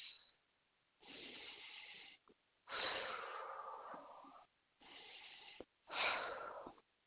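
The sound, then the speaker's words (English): Deep, slow breathing in two full cycles: each begins with a drawn-in breath through the nose and ends with a longer, airy exhale through the mouth, with short pauses between. “Close your eyes and take 3 deep breaths. In through the nose, out through the mouth.”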